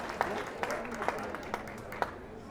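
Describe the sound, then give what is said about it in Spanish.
Crowd applause at a community water caravan gathering in Teotongo, a dense, steady patter of many hands clapping, with a few louder peaks of sharper claps throughout. “Fuerte aplauso a nuestro entrañable camarada Jaime Reyes.”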